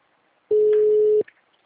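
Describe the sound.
A single steady telephone ringback tone plays as a call is placed to a bank client. It sounds once for under a second, level and mid-pitched, with no talk during the tone.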